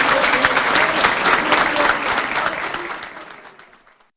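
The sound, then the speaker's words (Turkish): Municipal workers and party members applaud an official starting in office, a dense, steady clapping that gradually fades out over the final seconds. “belediye çalışanları ve partililer tarafından alkışlarla karşılandı”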